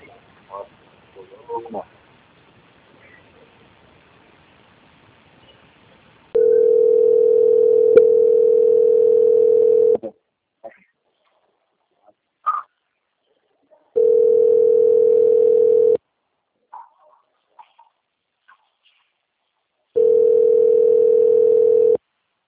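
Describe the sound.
A telephone line tone plays while a call is transferred to another department: a steady, mid-low hum comes in three long, even bursts separated by silent gaps, after a few faint, scattered noises at the start.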